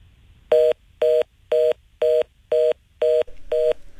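Telephone dialing tones place a radio call-in: seven clear, evenly spaced beeps of equal length and loudness, each a steady electronic dual tone separated by short silences, with a faint hiss between them.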